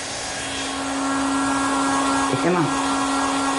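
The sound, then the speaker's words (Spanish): A hair dryer runs while drying an elderly woman's hair, giving a steady, loud whooshing drone with a low hum. It holds nearly constant throughout and grows slightly louder after the opening second. “Virginia enjabona la espalda de la madre con una esponja. Le seca el pelo.”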